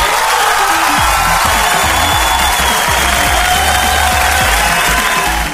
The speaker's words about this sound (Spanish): Bienvenidos a este primer programa que se titula The Crazy Show. ¡Aplausos!